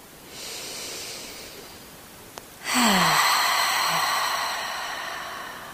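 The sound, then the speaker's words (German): A soft, deep inhale through the nose gives way to a louder, releasing exhale through the mouth. The exhale opens with a brief voiced sigh-like tone and then fades gradually as an airy rush. “darfst du gerne erstmal genüsslich und tief durch die Nase einatmen und wenn du magst, lösend durch den Mund aus.”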